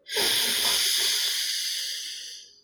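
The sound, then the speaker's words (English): A deep inhaled breath taken during a guided breathing exercise: a single steady, airy hiss of about two and a half seconds that starts sharply and gradually fades, with no talk over it. “And finally, the third breath, tell yourself mentally, good things will happen to me. Good things will happen to me. Inhale.”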